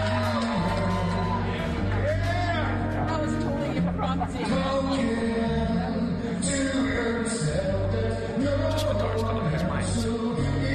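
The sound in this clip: Live rock duet on stage with two guitars, steady strummed chords under two sung lead vocals, carried over a continuous cheering and chattering crowd throughout.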